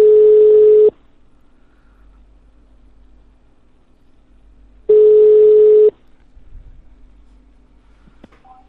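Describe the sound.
A steady single-pitched telephone line tone sounds in two one-second bursts about four seconds apart. Quiet line hiss fills the gaps, and a few faint clicks come near the end.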